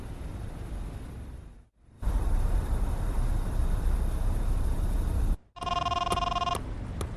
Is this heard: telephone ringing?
yes